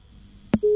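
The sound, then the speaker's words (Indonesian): A telephone busy tone follows a disconnected call: one sharp click, then a steady, continuous mid-pitched tone that holds to the end. “Iya, baik, sayang sekali terputus dari Pak Sudirman.”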